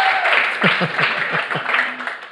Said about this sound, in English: Give me applause.